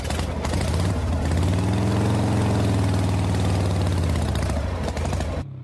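A motorbike engine runs loud and continuous as the rider sets off with a passenger behind, giving a steady, rumbling drone with strong low harmonics that cuts off abruptly at the end.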